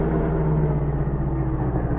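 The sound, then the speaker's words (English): A car engine, a chauffeur-driven staff car on a barricaded road at a border station at night, hums in a steady, low rumble that holds at an even level throughout. “Hours later, the general's car approached the border station. As its headlights speared the darkness, M saw the barricaded road and issued an order to the chauffeur. Driver, we'll have to stop.”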